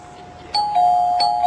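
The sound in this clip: Doorbell ringing in a 1990 stage play: a faint steady tone, then two bright electric chime strikes that keep ringing on, with no voices.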